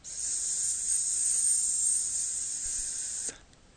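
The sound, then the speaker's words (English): Prolonged chanted letter S from one voice, imitating the hiss of burning fire, held steady and bright for about three seconds before it cuts off, followed by a faint short tail. “This letter S.”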